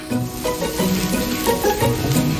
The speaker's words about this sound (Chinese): 另起一锅，将咸蛋黄慢火炒至泛起细密泡沫。